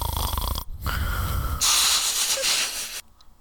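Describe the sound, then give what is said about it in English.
A person snorts in a loud, deliberate imitation of snoring: a rough, throaty low rumble, a short break, then a long, airy hissing breath, heard alone without talk. “Did you just snort?”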